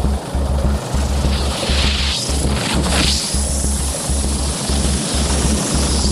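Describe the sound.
A military helicopter's rotor thumps steadily and loudly during a vertical assault on a gold miners' site, its low, regular beating continuing throughout with engine noise above and no voices.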